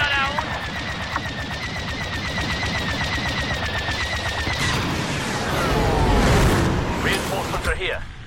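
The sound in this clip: Rapid automatic gunfire in a video game, a dense, fast stream of shots running steadily throughout, with heavier rumbling blasts swelling in toward the end.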